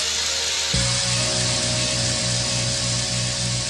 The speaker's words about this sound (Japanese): もうチェーンソーで和音を作ろうとしてること自体すげえよな。 そうですね、チェーンソーにもやっぱり音があるっていうのが、